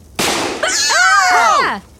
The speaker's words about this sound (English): his gun holster was attached to that belt, so as soon as his pants hit the ground, we see his gun fall out of the holster, clatter onto the parking lot, and loose a shot in y'all's direction